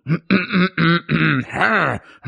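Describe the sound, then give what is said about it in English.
A voice imitates throat clearing in place of reading a brief statement aloud, producing a quick string of short, guttural voiced bursts separated by small gaps, ending in a longer wavering groan. “I just wrote down a bunch of – it just says throat clearing noises.”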